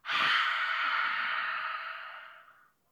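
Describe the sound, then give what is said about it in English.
Breath is let out slowly after a breath taken in through the nose during a guided breathing exercise: one long, airy, steady exhale lasting nearly three seconds that tapers off gently at the end. “Let's breathe through our nose. Hold it. Then breathe out.”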